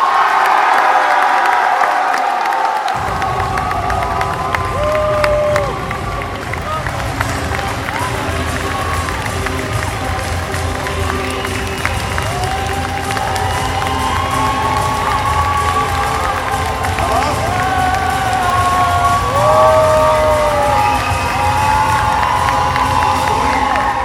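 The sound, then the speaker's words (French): A crowd at an event inauguration applauds and cheers continuously, with whoops and shouting voices rising and falling over a steady wash of clapping. “merci de faire un tonnerre d'applaudissements à monsieur Alexandre Astier.”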